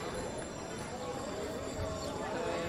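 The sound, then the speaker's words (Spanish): Hooves clop amid a dense, continuous wash of noise as the Sin Pecado brotherhood's cart sets off on the Rocío pilgrimage, with voices mixed in throughout. “Pues parte ya esta carreta de Sin Pecado, camino primero de ese monumento a la Virgen del Rocío,”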